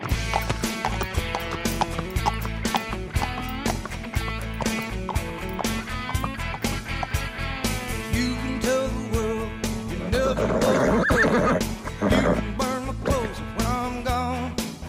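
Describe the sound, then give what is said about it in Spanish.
A horse neighs and its hooves clip-clop steadily throughout, a continuous stretch of rhythmic hoofbeats with whinnying mixed in. “Pues así, a los lomos de un caballo ha venido nuestro invitado de hoy”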